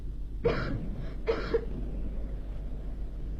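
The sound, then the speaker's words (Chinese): Coughing in a Beijing opera and folk-art performance: a few short, harsh coughs come in two close bursts over a low, steady hum, then give way to quiet. “海伦的咳嗽声声都震动着我那颤抖的心，这咳嗽声比雷声还要响。”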